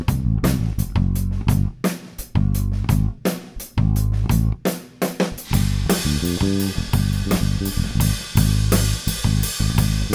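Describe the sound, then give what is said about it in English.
Bass guitar strung with white nylon tapewound strings, recorded direct, plays deep, rounded, punchy notes alongside a drum kit recorded with one mic in a small studio. Steady, rhythmic hits drive the groove, and a brighter wash of cymbals fills in partway through. “what you heard was this bass with these pickups and these strings recorded direct through my Ventura.”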